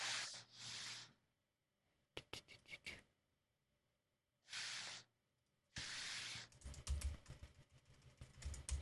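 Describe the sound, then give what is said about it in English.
Keystrokes on a computer keyboard as a chat message is typed: short runs of quick, crisp clicks in separate bursts, broken up by a few loud hissing noise bursts. “Gonna type in a All message here.”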